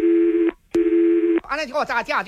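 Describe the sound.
Ringback tones play on a transferred telephone call that goes unanswered. Two long, steady mid-pitched beeps are separated by a short gap, then a voice starts speaking.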